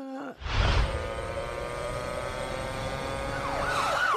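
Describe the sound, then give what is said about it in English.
A police siren wails loudly on its own, holding a steady high tone before breaking into a rapid rising-and-falling warble near the end. “That's the sound of the police.”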